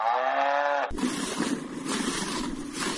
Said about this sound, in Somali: Minka waxaan la joognaa loodii oo la lisaayo.